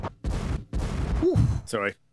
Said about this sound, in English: Finally got the bombs working.